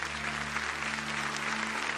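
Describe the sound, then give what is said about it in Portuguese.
Audience applauding a choir at a religious gathering: dense, steady clapping from many hands, holding an even loudness throughout. “Eu quero que vocês dêem uma bela salva de palmas para esse coral.”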